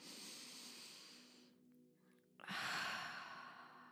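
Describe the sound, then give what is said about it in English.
A deep breath taken during a calming, centering exercise: two long, airy rushes of breath separated by a brief quiet pause, the second louder and fuller than the first, with no talk over them. “So could you take a deep breath here with me? One more.”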